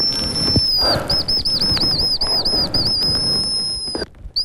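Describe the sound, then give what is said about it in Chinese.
A person whistles an imitation of a hazel grouse call in a Changbai Mountain forest, producing a long series of high, thin, wavering whistles with brief quavers, alone and fairly steady before stopping abruptly. “模仿花尾针鸡的声音再次响起”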